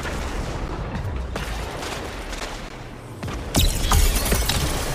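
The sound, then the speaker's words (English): Gunfire from the Golden Gun super in the video game Destiny 2: continuous crackling shots with a louder burst about two-thirds of the way through. “Golden gun, watch out. Defend him.”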